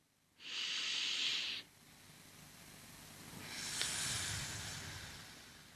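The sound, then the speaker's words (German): Slow, controlled breathing during a breathing exercise, with a delayed, lightly pressured exhale: one loud, airy rush of breath lasting about a second, a quiet pause, then a longer, softer stream of breath that swells gently and fades. “Und das erzeugt eben, wie gesagt, diesen leichten Druck. Ich atme nochmals ein.”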